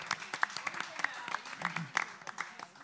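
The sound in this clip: Applause from an audience welcoming a punk rock performer, a fairly faint, uneven patter of many quick claps with a voice speaking over it.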